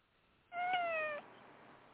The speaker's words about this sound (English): Oh, it's a cat.